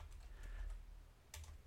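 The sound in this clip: Faint keystrokes on a computer keyboard as someone types a Google search, a few short clicking bursts separated by brief pauses.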